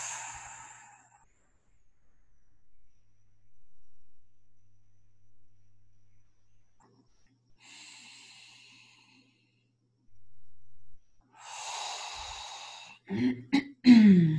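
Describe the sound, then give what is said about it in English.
Slow, deep breathing during a guided activation session: a few soft, airy inhales and exhales separated by long quiet gaps, followed by brief louder bursts of noise near the end. “Nice, slow, deep breaths.”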